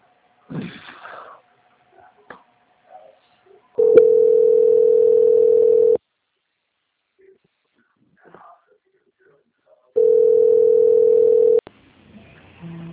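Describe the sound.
Steady telephone line tone while a call is transferred: two long, flat, mid-pitched beeps of about two seconds each, separated by a long silence. Faint breaths and brief voice sounds come before and between them.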